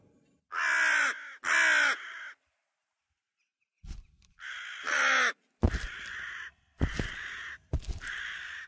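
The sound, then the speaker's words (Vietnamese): Loud, harsh cawing from a crow perched on a wooden post at the head of a dark lane: a series of drawn-out, rasping calls in uneven bursts separated by short pauses, with no voices. “chợt một con quạ từ đâu bay liệng tới xà đậu xuống trước cái cột gỗ, rồi nó mở miệng kêu lớn lên những âm thanh đầy đáng sợ”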